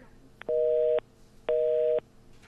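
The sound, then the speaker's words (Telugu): A telephone busy tone after a dropped call sounds as two even, steady mid-pitched beeps, each about half a second long and separated by a short pause, heard alone over faint background hiss. “మళ్ళీ call cut అయిపోయింది, signal problem ఉన్నట్టుంది.”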